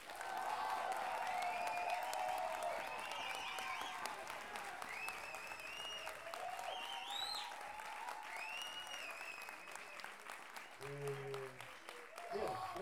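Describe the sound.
Recorded applause sound effect with cheering and whistle-like calls, a dense steady wash of clapping that gradually thins, ending with a brief voice over the last fading claps.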